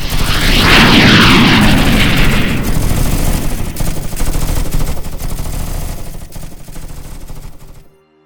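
Loud, sustained gunfire from weapons fired at will: a dense, rapid barrage of shots that roars continuously for about eight seconds, easing slightly near the end before cutting off.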